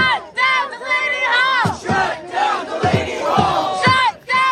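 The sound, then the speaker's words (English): Protesters shout and chant outside an ICE detention center in Newark, New Jersey. Many voices rise and fall in loud, continuous bursts of crowd yelling, broken by brief gaps. “Sounds we're listening to there from protesters outside Delaney Hall.”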